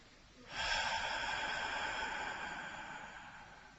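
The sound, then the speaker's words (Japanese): A long, slow exhale during a guided abdominal breathing exercise: a soft, breathy hiss that starts suddenly and fades gradually over about three seconds, with no talk. “まず吸って吐きます。吐き切るまで。もう一回吸って”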